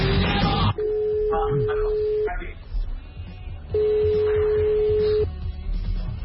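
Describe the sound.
Telephone ringback tone as a call is placed: two long, steady, mid-pitched tones separated by a pause, after a brief voice at the start and with faint background sound between the rings.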